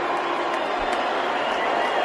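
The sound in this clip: An audience boos Elon Musk as he appears on stage, a steady, dense crowd roar with no breaks.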